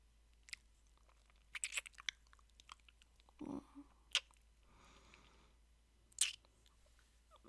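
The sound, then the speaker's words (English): Soft, wet licking along skin from jaw to ear: faint, scattered smacks and clicks with a brief breathy swell in the middle, all very quiet. “Well, beg me for it while I lick you from jaw to ear.”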